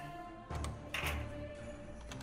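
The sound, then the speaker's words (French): Six dice rattle and clack across a table during a Degenesis tabletop role-playing session: faint, hard little clicks and thunks in a few quick clusters, with no talk over them. “Ouais, je vais dépenser un petit point en plus. Du coup, je lance 6 dés.”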